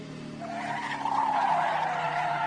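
A car driving very fast: a sustained, steady roar of engine and tire noise that swells slightly midway and holds loud to the end, with no talk over it.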